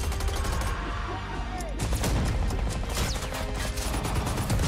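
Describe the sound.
Gunfire and battle sounds from a World War II video game: dense, loud volleys of shots and crashing impacts that run without a break through the whole stretch.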